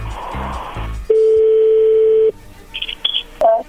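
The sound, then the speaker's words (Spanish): Telephone dial tone before a call: a steady, single-pitched hum holding for about a second, followed by a few short, higher beeps as a number is dialed. “vamos a llamarle a tu novia Verónica”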